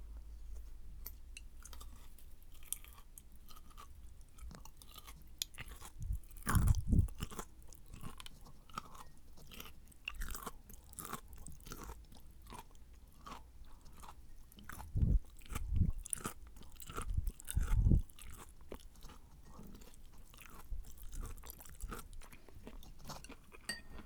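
Crunchy chewing of stir-fried carrots, a soft steady munching broken by a few louder bursts of crunching, with no voices.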